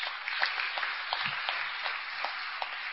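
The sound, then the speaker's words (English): An audience applauds a speaker celebrating 21 years and 11 months of sobriety. The clapping is dense, even and steady throughout, with no voices standing out. “believe me, you're not applauding me or my best thinking, okay? You guys are applauding yourselves”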